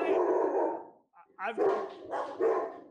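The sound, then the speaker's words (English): Dogs bark indoors at home in a few sharp, loud bursts separated by brief pauses. “So sorry for the dogs.”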